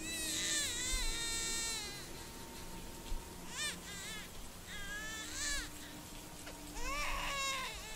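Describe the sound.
An infant wails, woken and shivering from cold outside a temple. A long opening cry is followed by several shorter trembling bursts with wavering pitch over a faint background hum.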